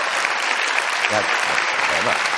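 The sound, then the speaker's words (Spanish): Audience applause fills the whole stretch as dense, even clapping at a steady level, with a few voices briefly rising through the noise. “Es que aplaudís a lo tonto, aplaudís.”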